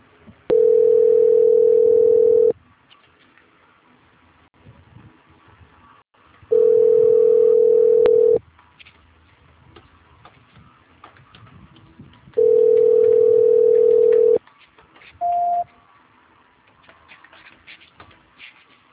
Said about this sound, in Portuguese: A ligação ficará muda por alguns instantes, eu peço por favor que não desligue.